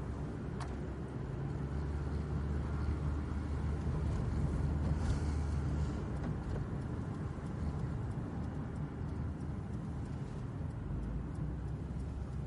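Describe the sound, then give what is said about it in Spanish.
A car drives along a road lined with houses in a film drama, giving a steady low engine and tyre rumble that holds evenly throughout with no talking. “Thierry conduce por una carretera. A los lados hay casas.”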